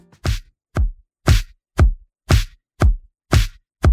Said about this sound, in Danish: fordi hvis der var nogen, der var kommet ind i et studie med de her trommer og sagt, det bliver et hit, så ved jeg ikke rigtig, hvad det var blevet til. De lyder sådan her.